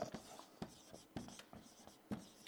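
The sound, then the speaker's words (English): Someone writes a word on a board, a handful of short, scratchy strokes separated by brief pauses, fairly quiet and with no talk. “I'm going to write courage up there. Courage.”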